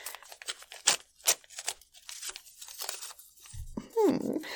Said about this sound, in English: Where did I put that envelope? Oh, there it is! Let's see who you voted for then, huh?